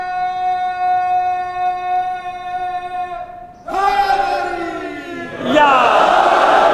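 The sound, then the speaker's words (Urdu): Crowd chanting slogans with fervour: one voice holds a long, steady shouted tone, then many voices join in a ragged, overlapping chant that swells louder toward the end. “بہت جوش میں نعرے لگا رہے ہیں، مگر سب مل کر نعرے لگاتے ہیں گڑبڑ ہو جاتی ہے”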